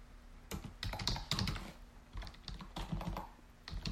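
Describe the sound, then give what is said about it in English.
Fast typing on a computer keyboard, many irregular clicking keystrokes in quick bursts with brief pauses, fairly quiet over a faint steady hum. “you're seeing me type in real time right now. And I must have hit the insert button because now I'm overwriting all my text.”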